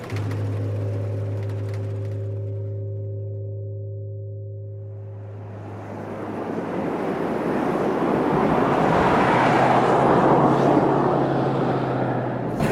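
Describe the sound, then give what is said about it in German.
Stormy wind and waves at night: after a low, sustained droning tone fades, a broad, rushing roar swells up and stays loud and continuous to the end. “Was für eine stürmische Nacht.”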